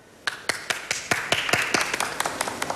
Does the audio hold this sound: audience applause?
yes